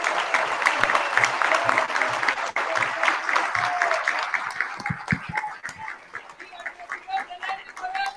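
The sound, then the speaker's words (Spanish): Crowd applause welcomes a political candidate at a gathering of artists and intellectuals on the future of Ecuador and Latin America. The clapping is loud and sustained for about eight seconds, thinning slightly toward the end. “Recibamos con un fuerte aplauso al candidato Lenín Moreno Garcés.”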